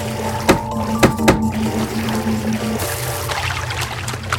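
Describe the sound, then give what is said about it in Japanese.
A video game character dives into a pool of water. Bright splashing, bubbling water noise begins partway through, just as the steady game music cuts off. A few soft thumps come before the plunge. “で、水場があったので潜ります。”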